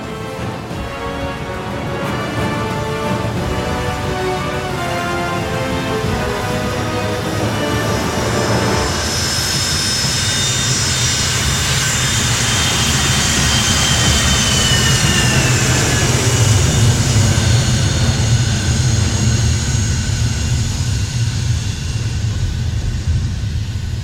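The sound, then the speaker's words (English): A jet airplane takes off after tower clearance: a loud, continuous engine roar that builds and thickens, with a high whine shifting across it over more than twenty seconds. “Bravo Oscar 826, you're cleared for takeoff.”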